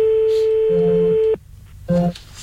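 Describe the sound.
An outgoing telephone call ringing: a steady ringback tone lasts just over a second, then a short pause before the next tone begins, with a lower tone overlapping each ring.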